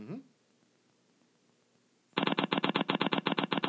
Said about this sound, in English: I'll spin the wheel first, okay?